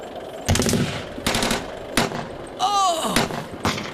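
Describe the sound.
Machine gun fire crackles out in several loud, sharp bursts separated by short pauses, with a brief high whistling tone between the later bursts.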